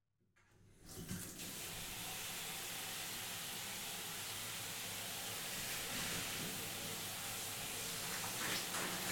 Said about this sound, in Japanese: じゃあ、このままシャンプー流していきますね。